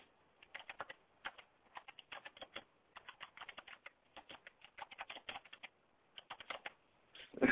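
Someone types a message on a computer keyboard: rapid, irregular bursts of light key clicks with brief pauses between runs, heard alone.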